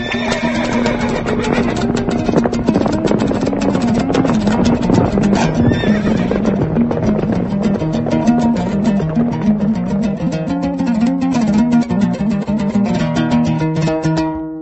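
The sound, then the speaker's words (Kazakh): Horses set off across a wide steppe by bright moonlight, four riders leading a spare steed: steady, continuous hoofbeats with repeated whinnies, loud throughout. “4 егет ат әйдәп, 1 буш аргамакны йөртеп, якты ай яктысында киң дала буйлап киттеләр.”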